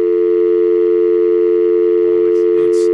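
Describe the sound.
A telephone line tone before a number is dialed: one continuous, loud, steady tone that holds unchanged throughout, with a few brief scuffing noises near the end.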